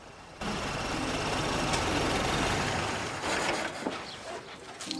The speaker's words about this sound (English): He turns excitedly and looks at the motor car through the window.